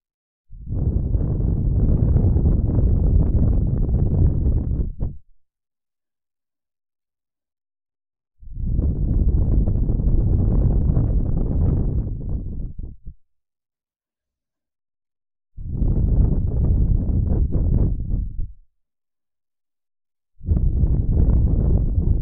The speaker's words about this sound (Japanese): ただ、息を吹きかけてるだけです。